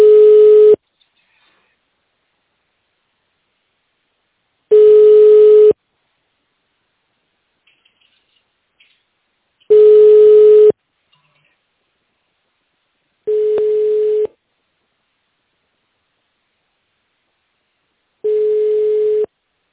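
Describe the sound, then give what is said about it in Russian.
A telephone line tone plays while a call is transferred to an operator: five long, steady, single-pitched beeps, each about a second, separated by silent gaps of a few seconds. “Ждите на линии, пока выполняется перевод вызова оператору.”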